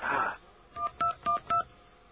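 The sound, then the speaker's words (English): Touch-tone telephone dialing while calling a directory information operator: after a short noisy burst, four clear DTMF beeps sound in an even, quick rhythm. “All right, let's see what we get if we dial an information operator.”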